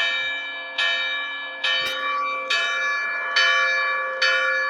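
A church bell rings in a steady series of bright, clanging strikes about a second apart. Each strike rings out and fades before the next, with no voices over the tolling.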